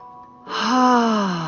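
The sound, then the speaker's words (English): A deep breath exhaled out through the mouth during a relaxation breathing exercise. It comes as one long voiced sigh that swells after a quiet start and sags slightly in pitch, with no talking. “I want you to take a deep breath in through your nose and exhale out through your mouth like this.”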